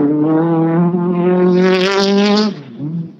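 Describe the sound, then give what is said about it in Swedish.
A Toyota rally car drives past with a loud, steady engine drone rich in harmonics. The tone brightens in the middle, then drops off sharply near the end. “Det kommer Toyota.”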